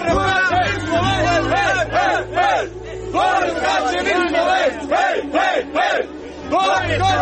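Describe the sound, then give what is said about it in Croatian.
A group of Slovenian fans chants and cheers loudly at a high-diving event in Mostar. Many voices rise and fall in sung, pitched calls in a continuous, dense chorus. “Pored nekoliko hiljada domaćih gledalaca, posebno se isticala grupica navijača iz Slovenije koji su glasno bodrili svoje ljubimce.”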